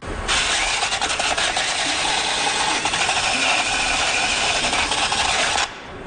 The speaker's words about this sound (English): That would be the sound of a wheel rim being cleaned before it's retorqued.